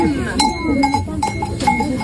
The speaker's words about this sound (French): Des moutons en ville, sur les routes, au pied des immeubles, dans les impasses.